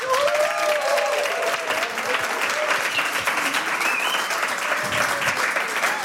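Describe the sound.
An audience at an evening event applauds, a dense and steady wash of clapping that stays loud throughout, with a few high whistles rising above it.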